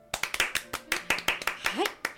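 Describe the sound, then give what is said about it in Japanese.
Hand clapping in a quick, uneven burst: many sharp, bright slaps follow one another across the whole moment, with faint voices underneath. “よかったら一緒に手を合わせて、今日も一日頑張った自分にご褒美の拍手をしましょう。”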